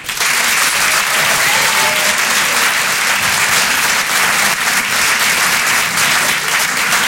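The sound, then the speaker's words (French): Comedy club audience applauding: loud, dense, steady clapping that fills the whole stretch without pause, with no clear voices standing out. “Je vous demande de l'encourager, de faire un maximum de bruit, s'il vous plaît, pour Paco.”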